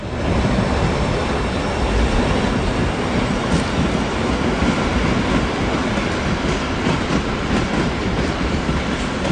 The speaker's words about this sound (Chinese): 听到他们的火车声